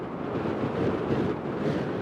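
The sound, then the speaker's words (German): Howling wind of a violent mountain snowstorm at about 7600 metres altitude, a dense, continuous rushing roar with slight gusty swells and no voices. “Es ist ein Schneesturm von überraschender Heftigkeit und Dauer.”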